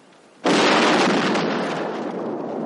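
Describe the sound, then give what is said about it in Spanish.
A sudden loud explosion as the ground blows up under a soldier's feet in a war scene. It bursts abruptly after a short quiet moment, then roars on broadly and slowly decays. “el suelo estalla bajo los pies de un soldado lanzándolo a varios metros.”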